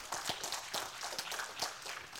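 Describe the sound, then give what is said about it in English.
Faint, scattered hand claps from an audience at a talk, clapping with their hands reversed on a speaker's instruction. The sharp claps come irregularly and sound thin, quiet and uncoordinated. “Now, whatever hand was on top, reverse that. So if your left hand was on top, put it on the bottom and do the same thing. Clap.”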